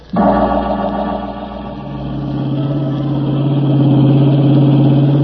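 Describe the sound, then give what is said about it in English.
The engine of a blue roadster driving down a twisting bayou road with a damp windshield: a steady mid-pitched hum that starts abruptly and grows gradually louder. “The blue roadster gathered moisture on its windshield as I drove down the twisting bayou road.”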